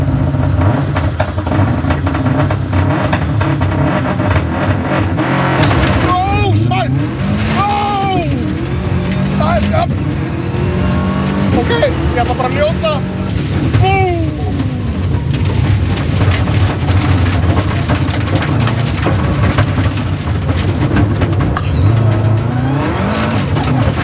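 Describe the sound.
A car engine revving as the car is put in gear, a loud, dense, continuous roar throughout with a few brief swells and shifts in pitch along the way.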